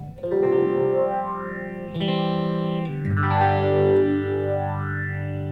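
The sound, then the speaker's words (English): Phaser pedal set to a slow rate with heavy resonance and feedback, slowly sweeping a vocal-like yowl through sustained, distorted notes; the held notes shift a couple of times while the resonant sweep keeps rising and falling. “the slower speed with that much resonance and feedback is very close to that classic electroharmonic small stone”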